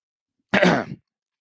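One short, rough throat clearing lasts about half a second, with silence before and after it.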